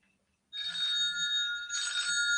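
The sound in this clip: A telephone rings with a steady, high electronic trill that starts after a short silence and continues, dipping briefly midway before carrying on.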